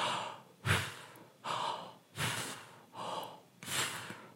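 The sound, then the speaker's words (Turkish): Deep breaths in and out during a breathing exercise demonstration, five airy, breathy sounds in a slow, even rhythm, each swelling and fading, with no talking between them. “Nefesi örnekle gösterecek alırsam”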